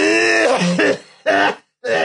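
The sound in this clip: A voice imitates a long coughing fit with loud, strained, voiced coughs in three bursts separated by short gaps. The first burst is the longest and most drawn out.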